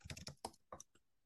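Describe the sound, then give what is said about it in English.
Typing on a computer keyboard: a quick, quiet run of several crisp key clacks, unevenly spaced and fading out after the last few taps. “we'll type it in quickly.”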